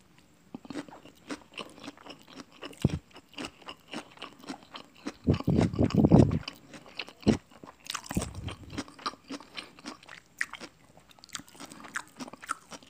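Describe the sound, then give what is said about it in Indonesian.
Crunchy chewing of raw cabbage eaten with chili sambal alongside fried catfish: repeated moist crunching bites, with a few louder bursts of crisp crunching standing out from softer, steady chewing. “kita cobain kolnya sama sambelnya sambel apa ini namanya sambel mak-mak enak mari kita coba”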